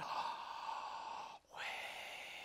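Someone breathes in deeply: a long, soft, airy hiss of inhaled breath, a brief gap, then more steady breath noise, all fairly faint with no talking.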